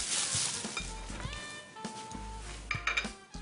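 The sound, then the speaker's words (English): Brown organic egg yolks being stirred, with light clinks and scraping from a utensil against the container in short, uneven strokes. “Give that a nice little mix.”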